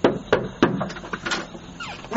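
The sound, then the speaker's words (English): Knocking on a house door: three sharp raps in quick succession, followed by a few fainter knocks and rustles. “Let me just knock on the door and grab it real quick.”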